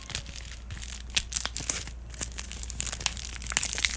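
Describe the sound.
Thick plastic wrapper on a chocolate bar being opened, giving a continuous run of faint crinkles and small tearing crackles with no talk.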